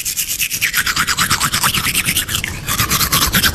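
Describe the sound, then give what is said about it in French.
Teeth being brushed: a rapid, steady run of bright scrubbing strokes in an even back-and-forth rhythm, fairly loud and continuous, with a brief break before the strokes resume. “Bah le brossage de dents qui est primordial.”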